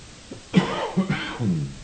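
Coughing and throat clearing from dust caught in the throat: a few rough, voiced coughs and harsh clearing sounds in quick succession, moderately loud, with no talk.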